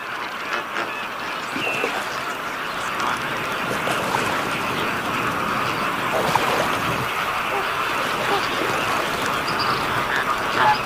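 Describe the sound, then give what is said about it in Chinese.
Caribbean flamingos feed in an estuary as the tide goes out, over a steady wash of water noise with scattered honking, duck-like calls running throughout. “现在潮水退去，入海口水位下降，加勒比海红鹳开始尽情享用美食。”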